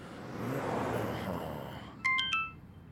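A phone message notification alert on a ride-hailing driver's phone: three quick, bright chiming tones near the end, after a stretch of muffled background noise.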